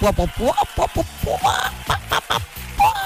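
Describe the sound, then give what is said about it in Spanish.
A person imitates a hen's clucking to greet the hens: a rapid run of many short, voiced, nasal bursts in an uneven rhythm, moderately loud and alone. “escuchamos como una gallina degollada por ahí que estaba sufriendo. No, era yo que estaba saludando a las gallinas. Así que aquí estamos saludando a las gallinitas.”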